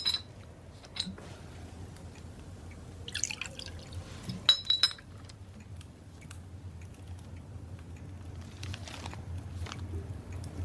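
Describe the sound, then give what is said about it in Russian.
Homemade fruit liqueur poured into a glass: faint dripping and trickling with a few soft glass clinks, over a low steady background hum. “у графа наливает, подает графу наливку.”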